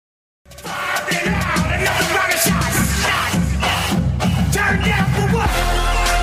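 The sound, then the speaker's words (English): Florida State football fans chant and yell over loud music. The massed crowd sound bursts in after a brief silence and holds at full strength to the end. “You hear the music. You hear the chant. That means we're going to talk some Florida State football right now.”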